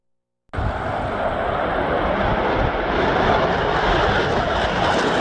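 Aircraft engine roar at Airshow London at London International Airport. It starts abruptly and then holds a loud, steady, broad drone to the end.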